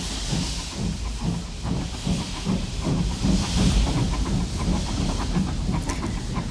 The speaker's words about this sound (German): Die Türen schließen. Vorsicht bei der Abfahrt des Zuges!